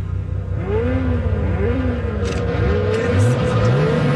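A Ferrari sports car engine revs in a loud, sustained note whose pitch repeatedly climbs and drops across the whole clip.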